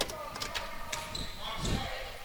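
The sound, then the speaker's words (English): Basketball dribbled a few times at the free-throw line in a women's college game involving Radford, light thumps under steady background noise while a commentator talks. “She takes a few dribbles at the charity stripe.”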